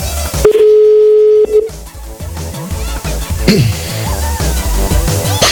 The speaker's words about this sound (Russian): Я просто одной этой своей клешнёй пытаюсь набирать сейчас.